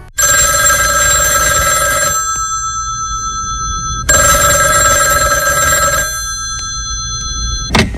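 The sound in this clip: A telephone bell rings in two long, loud, bright bursts separated by a pause, over a steady low rumble, with a brief click at the end.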